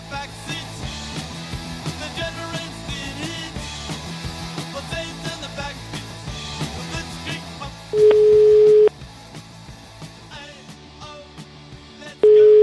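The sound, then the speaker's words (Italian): Steady telephone line tone from a call to a clinic in Rome, sounding in two loud, even bursts: one lasting under a second and a brief one at the very end, after a longer stretch of dense, layered sound. “In ospedale, chiamiamo al telefono David e chiamiamo Antinori, dai.”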